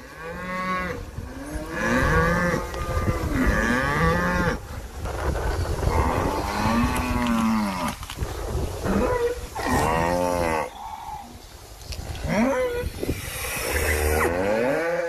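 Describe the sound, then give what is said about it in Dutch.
A herd of cows moos, recorded by a cyclist riding past: many deep, drawn-out, overlapping moos follow one another almost continuously, loud and restless. “Dit is een opname die gemaakt is door een fietser die langs een kudde koeien rijdt.”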